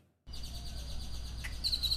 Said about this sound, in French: Les oiseaux qui chantent aux abords de l'école d'Uvalde ne suffisent pas à faire oublier la tragédie.